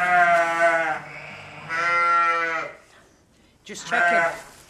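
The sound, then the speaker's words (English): A ewe bleats while giving birth to twin lambs, letting out three drawn-out, wavering calls separated by brief pauses, fairly loud and with no talk over them. “The ewe isn't making progress, so Olivia steps in to help her deliver her twin lambs.”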